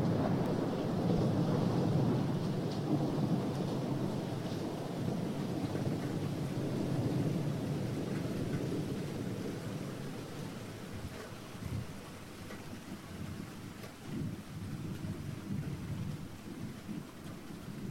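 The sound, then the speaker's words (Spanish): A nighttime thunderstorm with rain falling on a roof. Dense rain hisses steadily under deep rolling thunder, and the storm softens in the second half, leaving a few louder rumbles. “Cuando es de noche, a muchas personas nos gusta también escuchar la lluvia en el tejado o el sonido de la tormenta.”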